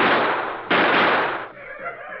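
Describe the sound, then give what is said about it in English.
Two gunshots fired at the ground near a chief's feet: two loud, sharp blasts, the second at under a second, each trailing into a sustained noisy roar that fades. “We're going to fire at the ground near the feet of the chief. Here goes.”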